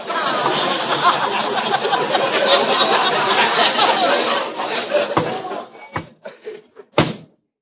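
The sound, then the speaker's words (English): A secret panel in a wall slides open with a sustained, rough scraping rumble for about five seconds, then trails off into a few sharp knocks and clunks. “Hey, look, Costello. There's a panel sliding open in that wall.”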